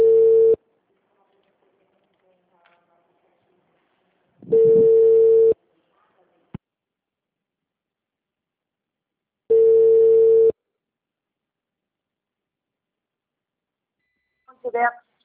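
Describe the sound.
A telephone busy tone after a dropped call: three long, steady, low-pitched beeps spaced several seconds apart over near silence, a single sharp click between them, and a brief voice at the end.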